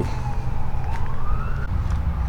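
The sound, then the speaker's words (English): An ambulance siren wails near a boardwalk, its steady tone sliding slowly upward over a continuous low rumble. “And here comes the ambulance. I can't see it, but I can hear it. Emergency vehicles to the rescue.”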